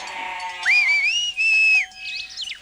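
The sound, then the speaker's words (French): A shrill whistle blast at dawn from a goatherd arriving to take the goats up the mountain: a long, high, wavering tone broken briefly midway, followed by faint chirpy sounds. “Réveillée dès l'aube par un coup de sifflet, Heidi comprend tout de suite que Pierre vient d'arriver”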